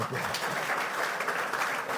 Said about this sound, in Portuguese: De modo que acho que eles merecem um aplauso.